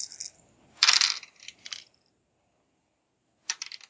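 Six dice clatter onto a table during a tabletop roleplaying game, in a few short bursts of sharp, bright clicking with quiet gaps between them and a final rattle near the end.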